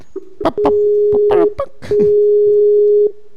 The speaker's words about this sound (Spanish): Primer tono. Segundo tono. Suena muy raro, ¿no? Dos tonos.